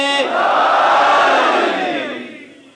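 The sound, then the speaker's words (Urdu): Audience at a religious sermon shouts back in unison in answer to the Naara-e-Haidari call. A brief voice at the start is followed by one loud, sustained collective roar that swells, holds for about two seconds, then fades away. “اس توفیق کو حاصل کرنے کے لیے مولا کو پکارتے ہیں, نعرہ حیدری.”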